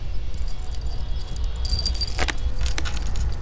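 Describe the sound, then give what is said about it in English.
Keys jangling as someone fumbles with them at a yacht's bridge controls, a few bright metallic clinks and rattles in quick succession over a steady low rumble. “He slowly moves towards the bridge controls and fumbles with the keys.”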